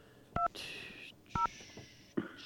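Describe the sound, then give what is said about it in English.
A cell phone number being dialed: short keypad tones spaced about a second apart, each followed by a longer, steady, higher electronic tone, all fairly faint. “Let me find his cell number right now, and let me dial it for you and see if we can get Mario on.”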